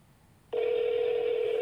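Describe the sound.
A ringback tone sounds on an outgoing telephone call late at night. After half a second of low background hiss, a steady, loud, unbroken tone starts and holds to the end.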